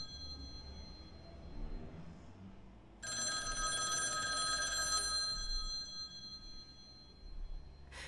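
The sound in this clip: A telephone at a police precinct rings with a bright, trilling bell in one sustained burst. A quiet low hiss sits under it, and another ring just begins at the very end.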